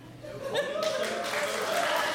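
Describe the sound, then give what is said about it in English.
An audience applauds in answer to a show-of-hands question: a brief voice is heard at first, then clapping swells in and continues evenly, with some voices and light laughter mixed in. “How many of you, by a round of applause, would have chosen roof?”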